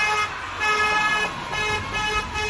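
A car horn honked as a greeting signal, sounding a few loud, sustained, bright blasts with short dips between them over a faint motor hum.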